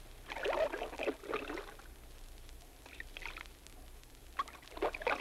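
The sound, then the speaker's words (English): A fisherman quietly paddles a canoe in the Florida wilderness, with a few soft, spaced paddle strokes swishing and dripping through the water over a faint, still background. “That was the sound made by a fisherman quietly paddling a canoe.”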